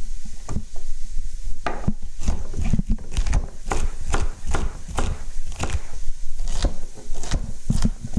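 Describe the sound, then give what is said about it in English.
Knife chopping leeks on a cutting board while making beef bourguignon: many quick, sharp strikes in a steady, slightly uneven rhythm, each a dry thud with a crisp click, with no talking. “I'm going to chop the leek up here.”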